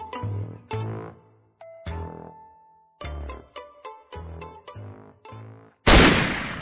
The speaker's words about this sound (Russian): Одиночный выстрел АК-103 действительно пробил аккуратную дыру